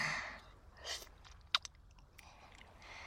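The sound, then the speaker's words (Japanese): Soft chewing and biting while eating a sandwich and cherries: faint, moist mouth sounds with a couple of sharper crunchy clicks near the middle. Nobody speaks. “いいよ、サンドイッチ食べてて。私はデザートのさくらんぼちゃんいただいてるから。”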